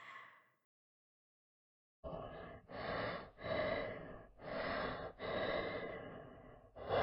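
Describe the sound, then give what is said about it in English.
Heavy breathing of a sleeping man: after a brief sound and a silent pause, a run of loud, rough breaths follows one after another at a steady rhythm. “Oh, can you hear that? He's starting to breathe heavily.”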